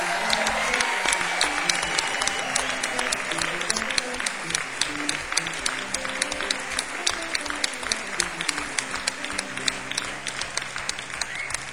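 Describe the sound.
An audience applauds to welcome a musician onto the stage at a live art event: a dense, steady wash of many hands clapping that holds at an even, loud level for about twelve seconds.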